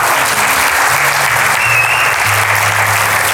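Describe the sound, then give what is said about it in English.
A church audience applauds for online viewers, dense and steady clapping from a large crowd that holds at an even level throughout. “Give them a great big hand online. Will you do that?”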